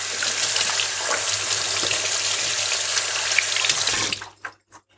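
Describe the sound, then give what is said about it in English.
Tap water runs while hands are rinsed after scooping ripe persimmon pulp. A loud, steady rush of running water cuts off near the end, followed by a few brief drips. “I'm going to rinse my hands and blend up the cream.”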